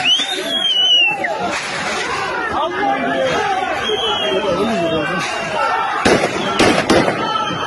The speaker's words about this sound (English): Here's the Russian mob firing warning shots at the police, not the other way around.